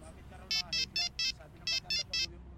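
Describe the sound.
A mobile phone rings with an incoming call, sounding as bright, high electronic beeps in a group of four and then a group of three, clear over a low background.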